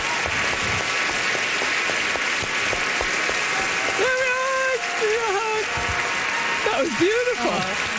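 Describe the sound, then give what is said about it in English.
Warm, sustained applause from an audience welcoming a guest author at a book event, steady and dense, with a voice speaking over it in the second half. “Great applause, rock applause, and that's how you get to see folks.”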